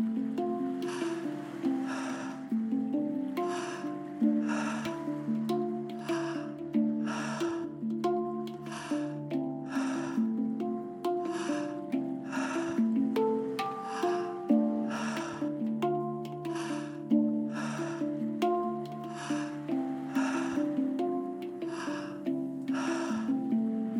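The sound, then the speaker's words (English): Deep, forceful breaths from a Tummo breathing exercise, repeating in a steady, quick rhythm. Many breaths sound over a continuous, droning musical background. “Continuing to breathe fully and deeply, building energy within your body.”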